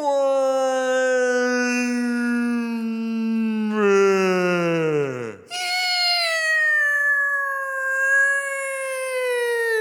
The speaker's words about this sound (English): Spock says, oh, that sounds like a whale